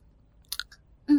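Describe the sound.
Biting into a partly cooked fried egg gives a few soft, brief chewing and mouth clicks, then a louder, tonal mouth sound near the end.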